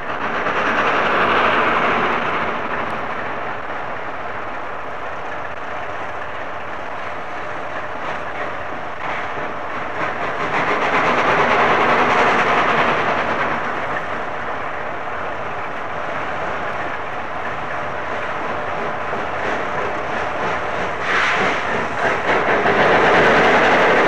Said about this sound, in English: The rails were very, very greasy, and you can hear the difficulty she's having in starting.